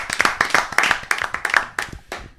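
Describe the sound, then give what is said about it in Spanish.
A small group gives a hearty round of applause in thanks for a raw vegan brownie: many sharp, uneven hand claps that trail off near the end. “quero pedirlles un, un forte aplauso sí, para sí. os responsables de Recende.”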